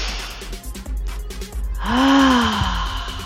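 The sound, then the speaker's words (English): A deep breath is drawn in during a guided breathing moment, a long, breathy hiss that swells, then ends in a short voiced sigh-like tone. “Let's take a deep breath through those beautiful lungs and that beautiful body you're beholding.”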